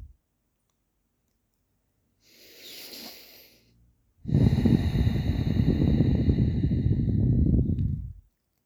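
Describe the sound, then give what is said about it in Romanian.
Deep breathing during a calming exercise, deeper than usual: one faint, airy inhale, a brief pause, then a long, loud, rushing exhale that fades out, with no talk. “Inspiră și expiră de 3 ori mai adânc decât de obicei.”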